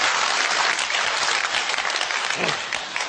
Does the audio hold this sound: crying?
no